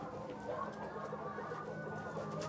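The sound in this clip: A hen clucks in a stall while she is handled and examined for laying-bone condition and stress; steady, busy clucking carries at an even loudness throughout, with no voices over it.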